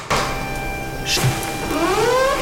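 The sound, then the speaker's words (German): Electric motor whine of remote-controlled kitchen cabinets being raised and lowered at the push of a button: a steady mechanical hum, then a rising tonal whirr as the units move. “ferngesteuerte Küchenschränke. Ich darf die per Knopfdruck auch mal hoch und runter fahren lassen.”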